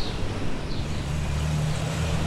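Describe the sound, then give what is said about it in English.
Low engine drone of a UPS delivery truck on a city street, a steady rumbling hum with a few low tonal lines under a broad wash of traffic noise, staying level throughout with no talking. “Did you get the reading on that UPS truck? It was 81 with the UPS truck.”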